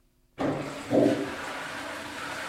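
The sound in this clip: A toilet in a bistro flushes from its overhead cistern. Water bursts in suddenly, surges briefly, then settles into a steady, loud rushing that continues to the end.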